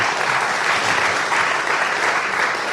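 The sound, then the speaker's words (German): Audience applause welcoming guests to a panel discussion: a dense, even wash of many hands clapping at constant loudness throughout, with no voices. “es kann immer wieder applaudiert werden.”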